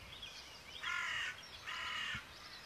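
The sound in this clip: Harsh crow-like caws from birds in the pre-dawn chorus: two loud, rasping calls stand out in the middle, with fainter calls at the start and end.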